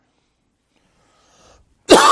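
One sharp, sudden cough from a tickle in the throat breaks a near-silence, a loud, brief, breathy burst at the very end.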